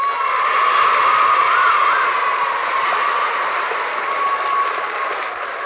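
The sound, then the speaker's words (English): A studio audience gives sustained applause, a dense, even patter of clapping that eases slightly toward the end. “Thank you. Thank you for that nice reception, audience, and welcome to Let's Pretend.”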